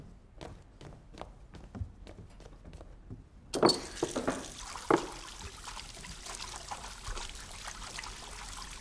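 Hands are washed under running water from a tap, a faint steady rushing stream that starts abruptly after a few soft taps and continues to the end.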